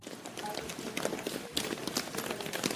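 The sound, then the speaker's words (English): Footsteps of several people running up stairs: a rapid, dense patter of many overlapping thuds that keeps a steady, busy pace from start to finish. “Okay, everyone, run up the stairs in 3 seconds.”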